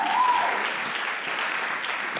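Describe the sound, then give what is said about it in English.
Audience applause welcoming a panel, a dense, steady wash of clapping that holds evenly at a fairly loud level from start to finish. “why don't we give a very warm welcome to our five by five panel? Come on, give it up for them.”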